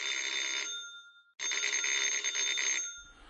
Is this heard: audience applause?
no

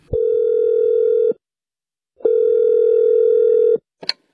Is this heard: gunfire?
no

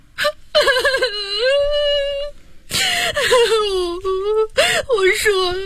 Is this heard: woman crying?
yes

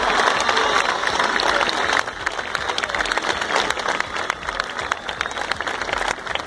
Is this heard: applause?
yes

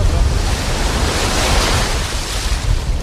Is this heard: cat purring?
no

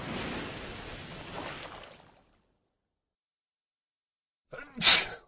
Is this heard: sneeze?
yes

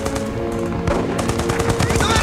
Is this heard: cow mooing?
no

